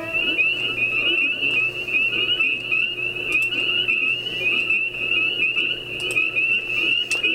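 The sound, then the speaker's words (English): Spring peepers, small chorus frogs, calling together in a dense chorus: a continuous, shrill, high-pitched peeping that stays loud and steady throughout, over a low background hum. “That's the sound of the spring peeper, Pseudocrys crucifier. It's a small chorus frog, widespread throughout the eastern United States and Canada.”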